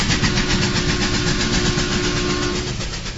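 Rhythmic chugging of a train locomotive used as a sound effect, a steady loud pulsing rumble with a hissing top, running alone without voices.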